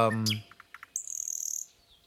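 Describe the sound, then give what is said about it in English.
Birds chirp in a backyard: a falling chirp and a few short high calls, then a bright, rapid trill that runs for under a second before fading. “But let's get the birds in the mix.”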